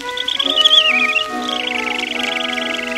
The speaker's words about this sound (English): He warbled with pride from his nest in the brush and said that the spring was just made for the thrush.